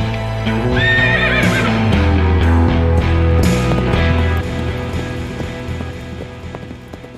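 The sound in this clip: A horse neighs in a brief, high whinny near the start. The call sits over a dense, loud background of low rumbling and clattering that fades somewhat toward the end.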